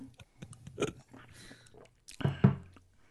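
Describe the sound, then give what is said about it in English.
Wet mouth noises come from someone licking and chewing a piece of gum: scattered smacks and soft crunchy bites, with the loudest chewing bursts toward the end. “You have to first lick the gum like you made me do. Okay, I'm going to lick the biggest.”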